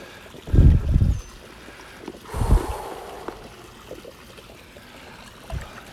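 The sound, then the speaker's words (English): Someone wades waist deep in chlorinated pool water. A few soft sloshing surges break the quiet, with faint trickling and dripping in the gaps between them. “now we're waist deep in the water. This feels good. We're going to test the chlorine too while we're here.”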